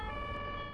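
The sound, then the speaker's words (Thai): An ambulance siren wails in a steady, high held tone over a low rumble, filling the brief moment without talk. “รถพยาบาลน่ะ”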